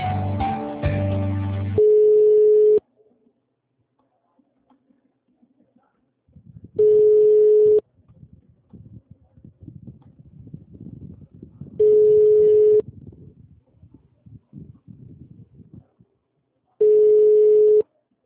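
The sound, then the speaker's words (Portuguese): Telephone line tones as another office extension is dialed: a short burst of harsh noise, then four steady beeps of one pitch, each about a second long and spaced several seconds apart, with low rustling noise between them. “Eu vou tentar um ramal, não, o dele não atendeu. Vou tentar um próximo lá, tá?”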